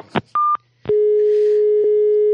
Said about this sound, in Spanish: Y llamamos para darle la enhorabuena.